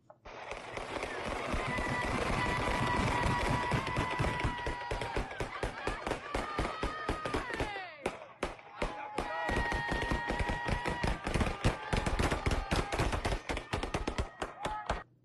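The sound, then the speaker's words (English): Gunfire from many pistols plays from a video as a dense, relentless crackle of rapid shots. The shots run almost without a break for about fifteen seconds, with a brief lull near the middle. “In the city, I ain't heard niggas shoot like this, and I don't think I ever heard niggas shoot like this. Sound like Fallujah at night.”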